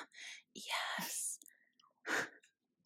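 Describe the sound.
Wet, juicy chewing and biting of a sumo citrus fruit, eaten ASMR-style as a seasonal snack. A few moist, crackling bursts of varying length come in irregular succession, with quieter gaps between them and no clear talk.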